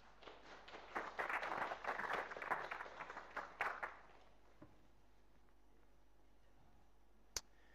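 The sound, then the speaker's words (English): An audience claps to welcome two people as they come forward at a gathering. The applause is a dense, lively burst of about three seconds, then quickly dies away into near silence with a couple of stray sharp clicks. “So let's give them a hand as they come up.”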